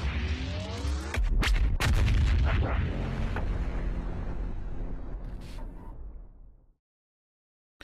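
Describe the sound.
Loud bursts of weapons fire and heavy booming blasts from a video game, several sharp reports piling into a dense rumble that slowly fades, then cuts to silence near the end.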